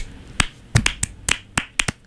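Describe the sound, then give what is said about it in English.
Sparse handclaps in a studio, several sharp separate claps spread unevenly over two seconds, with brief gaps between them and no crowd noise. “The whole studio is clapping. It's filled with people in here.”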